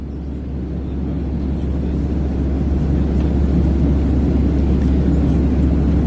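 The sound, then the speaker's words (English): Airplane cockpit ambience from a flight simulator: a steady, loud, low engine drone and rumble that holds constant, swelling slightly toward the end, with no voices. “Alexa, open Ambient Visuals Flight Simulator. Okay, here's Ambient Visuals Flight Simulator.”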